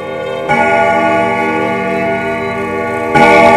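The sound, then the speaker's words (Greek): A clock strikes ten on a Monday night, two resonant bell-like strikes sounding here, each a bright metallic onset whose rich tone hangs and rings on in between, fairly loud with no voices. “Δευτέρα βράδυ, όταν το ρολόι χτυπάει 10,”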